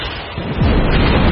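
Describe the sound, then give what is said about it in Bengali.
An explosion from fire arrows striking trees in an air attack: a loud, deep rumbling blast swells up after a brief moment and continues as a sustained, broad roar with no voices. “এমন সময় কোথা থেকে দুটো আগুনের তীর ছুটে এসে ওদের কাছাকাছি গাছপালার উপর ঠিকরে পড়ে কান ফাটানো বিস্ফোরণ ঘটাল। Air attack”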